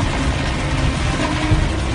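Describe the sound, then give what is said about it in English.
A failing aircraft piston engine keeps running while black smoke puffs from its exhaust, one of two engines on a plane where it will not feather. It makes a steady, dense, rumbling drone with no break, and no voices are heard. “It's still turning, eh? Still turning. Not shut down.”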